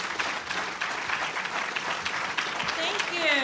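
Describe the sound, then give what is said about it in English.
An audience at a Wyoming Republican evening event gives steady, full applause to welcome a guest speaker. The clapping is dense and continuous, with no talk over it. “Give her a warm Wyoming Republican hand.”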